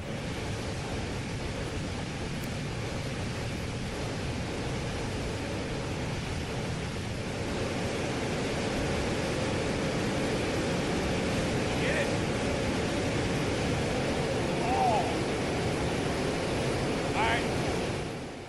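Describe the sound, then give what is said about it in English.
Rushing water of a large waterfall roars as a steady, dense wash of noise that stays loud and even throughout, with no distinct separate events. “Listen, here's the sound of many waters.”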